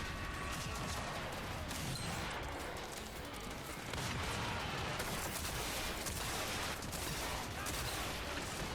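Shotgun fire in a fast-paced video game forms a relentless, dense barrage of loud blasts running continuously from start to end, with no clear gaps between shots.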